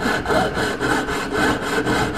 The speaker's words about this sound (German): Die Säge? Da reißen zwar ständig die Sägeblätter, aber man kann so viele tolle Sachen mit der Säge machen.